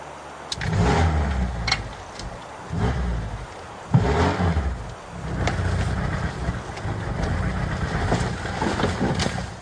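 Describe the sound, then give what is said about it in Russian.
Engine of a blue Moskvich car, rumbling steadily and rising in several revving swells of roughly even loudness, with no voices. “Синий москвич. Это его машина.”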